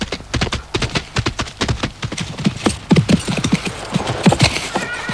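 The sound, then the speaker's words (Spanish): A horse being ridden gives many quick, rhythmic hoof clip-clops at a steady pace, loud and close together, with a short whinny among the hoofbeats. “Cabalgué los últimos metros hasta llegar a la aldea.”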